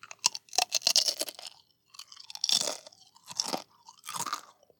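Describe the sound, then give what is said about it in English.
Fried tortilla chips crunch between the teeth in a few separate bursts of crisp, brittle chewing, fairly quiet, with short pauses between bites. “our neighbors in Mexico make a delightful snack similar to the potato chip, made from fried tortillas.”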